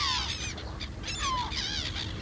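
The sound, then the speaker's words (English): A magic bird calls in a few faint, warbling, honk-like cries with wavering pitch, heard alone over a low hum. “And this is a magic bird.”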